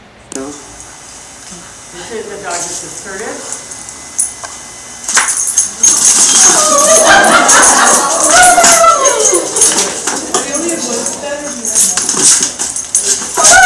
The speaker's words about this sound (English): the crying dog is my German Shepherd